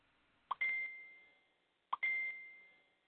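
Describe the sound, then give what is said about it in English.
Two dings on a caller's phone line, each a sharp strike followed by a clear, high, ringing tone that fades slowly, spaced about a second and a half apart. “Go ahead, Chicago, with all the dings. Go ahead. Ding, ding, ding, ding, ding, ding.”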